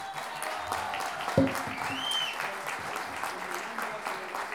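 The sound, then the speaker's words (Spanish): An audience applauds Chilean folk improvising singers at a national improvised-verse tournament. The clapping is steady, dense and continuous, and stays at an even level throughout. “vamos a partir con un aplauso para los payadores y payadoras chilenas.”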